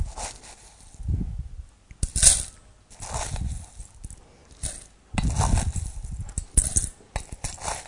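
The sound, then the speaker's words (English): A spoon scooping granular lye for soap making gives crisp rattling and clinking of small pellets in several uneven bursts, with quiet gaps between and no talk. “And now you use your spoon for the lye. And we want 5.05 ounces.”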